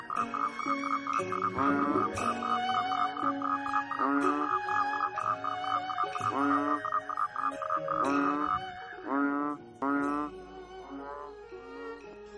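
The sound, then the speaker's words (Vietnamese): Frogs croak in a dense chorus of many overlapping, buzzing calls. The chorus is continuous and layered with pulsing, rhythmic trills throughout, and it thins out briefly near the end. “Sao nay ếch nhái ở bên đó kêu ghê vậy nhỉ?”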